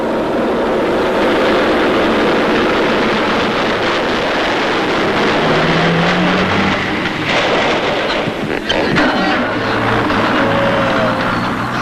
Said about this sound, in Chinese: 敌人的军车开到了离侦察连战士隐蔽位置的不远处，停了下来。